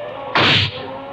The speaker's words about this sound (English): You got him, sir. What a shot.